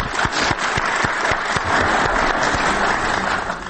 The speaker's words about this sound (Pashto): د تالار د تماشاچانو او حاضرینو څخه هیله کوم چې د دوی په افتخار یو چکچکې وکړي.